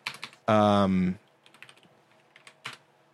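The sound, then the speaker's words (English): Computer keyboard typing, with scattered light key clicks before and after a brief loud voiced sound in the middle. “I typed in Alexei Sorokin and I got military commander.”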